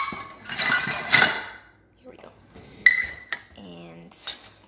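Metal measuring spoons clink and rattle while baking: a few sharp, bright clinks and clatters separated by short pauses.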